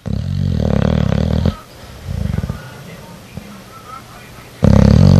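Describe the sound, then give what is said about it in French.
Deep, rasping snores come from Gaston, a bulldog. There are three loud, throaty bursts, the first the longest, with quieter breathy stretches between them. “mais un bulldog à la base, ça, ça ronfle tout le temps. C'est un ronfleur, pétard.”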